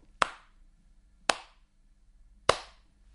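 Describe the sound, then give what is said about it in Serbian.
Three sharp, loud hand claps, each standing alone and separated by about a second of silence, used to demonstrate a basic rhythm in a music lesson. “Smena zvučanja i tišine, naglašenog i nenaglašenog muzičkog doživljaja, označava ritam mog pljeskanja ruku.”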